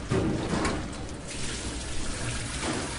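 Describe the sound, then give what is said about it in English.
Tomatoes washed under running water make a faint, steady stream of trickling and splashing water that continues evenly throughout. “So these tomatoes have already been washed, but I like to give them another wash because food safety.”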